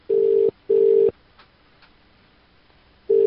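A telephone ringback tone heard while a call is placed: two short low buzzing pulses close together, a longer silence, then the next pulse starting. No voices.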